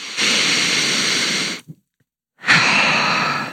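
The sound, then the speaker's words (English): A deep breath in and out, heard alone: a loud, rushing, airy inhale lasting over a second, a brief silent gap, then an equally loud, long, breathy exhale. “Let's take a deep breath.”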